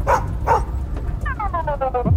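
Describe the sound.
A dog barking: two sharp barks, then a quick run of higher, tonal yips, all over a continuous low rumble.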